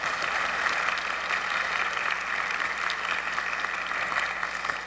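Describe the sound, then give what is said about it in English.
A church audience at a traditional service applauding people being welcomed into the audience: a steady, continuous round of clapping, even in level and fairly soft, with no pause from start to finish. “Would you give these people a big round of applause?”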